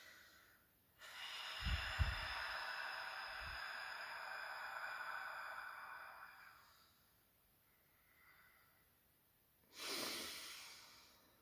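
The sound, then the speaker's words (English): Forceful exhales made by squeezing the tummy muscles to push air out: one long, rushing, breathy blow that fades gradually, then after a pause a second shorter, sharp burst of air. “you're going to squeeze those tummy muscles so hard, and you're going to push that air out. So it will sound something like.”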